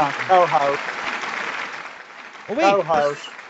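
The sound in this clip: An audience applauding at a bass fishing talk show, a steady wash of clapping beneath people talking.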